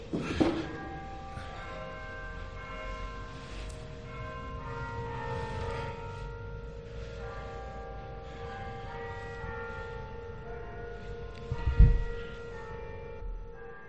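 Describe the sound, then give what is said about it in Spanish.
A clock chimes Luis Aramburu's 1957 hymn: the Virgin's clock on Carrera de la Virgen in Granada. Sustained, overlapping bell tones ring over a low steady hum, and a brief louder thump comes near the end. “esto que están oyendo es el reloj de la Virgen con el himno de Luis Aramburu de 1957”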